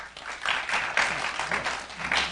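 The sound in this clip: An audience claps throughout in a dense, even wash of many hands, fairly soft, with small swells and dips in loudness.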